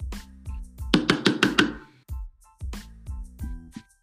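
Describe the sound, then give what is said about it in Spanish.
A video call's knock notification, sounding as people ask to join, plays as many sharp, hollow knocks in repeated quick clusters, including one fast rapping run. The knocks ring clearly with short gaps between groups. “Ah, hay dos personas que quieren entrar, están tocando.”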